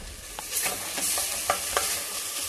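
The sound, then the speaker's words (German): Onions frying in a pan: a steady hiss and sizzle, with several light scraping knocks as they are stirred. “Ja, Zwiebeln gehen an, das dauert einen Augenblick.”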